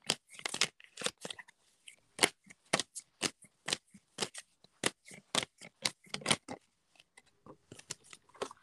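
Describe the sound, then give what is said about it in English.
Tarot cards being shuffled and drawn make many crisp, quick snaps and riffling clicks in an uneven rhythm. The sounds are fairly faint and come alone, with no talking. “Let me draw a few more cards.”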